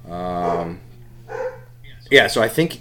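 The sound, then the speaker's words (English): A dog barks a few short, sharp times near the end, after a longer tonal vocal sound earlier on. A low, steady hum runs underneath throughout. “Dog barking. Sorry for the dog barking, people. There's a dog.”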